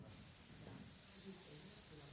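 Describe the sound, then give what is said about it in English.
A person hissing out a long breath during a fitness exercise, a sharp, steady hiss that holds evenly for about two seconds without a break. “You're going to open. You're going to hiss.”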